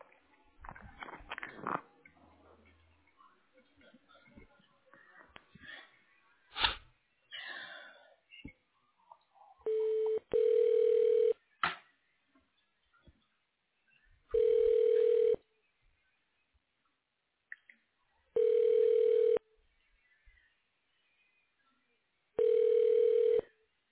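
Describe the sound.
A telephone ringback tone sounds as a call is put through to voicemail: several evenly spaced, steady electronic tone bursts separated by silence, following a stretch of brief talk and handling noise at the start.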